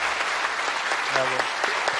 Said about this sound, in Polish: I naprawdę teraz brawa dla rodziny i dla Buska.